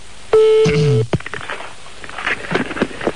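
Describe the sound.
Telephone dialing sounds: a sustained electronic tone, then a shorter, lower tone sliding downward, followed by a scattered run of clicks and small irregular bursts.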